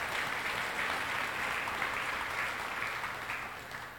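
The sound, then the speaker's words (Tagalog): A church audience applauds the Lord with a fairly quiet, sustained wash of many hands clapping that tapers slightly toward the end. “Again, palakpakan natin ang Panginoon, mga kapatid.”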